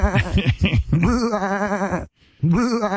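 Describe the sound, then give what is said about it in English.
A man imitates a goat with quavering, nasal bleats. The vocal sounds come in a run of short wobbling cries, then a long trembling one, a brief silence, and another bleat starting. “here's Goat Boy to give a 21 bleat salute”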